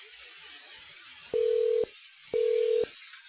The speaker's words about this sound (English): If you know your part is extension, please place a 4 in front of the extension and dial the extension at any time.